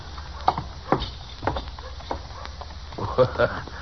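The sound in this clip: Horse hooves clip-clopping as a rider comes up Front Street in an Old West town, a quick, irregular run of hollow clops of varying loudness over a soft hiss.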